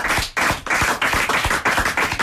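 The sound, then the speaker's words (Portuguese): Audience applause answers a call for a round of applause: a dense wash of clapping with a pulsing, fairly even rhythm, loud and continuous throughout, with no voices. “Alexandre Silva, para quem eu vou pedir uma salva de palmas”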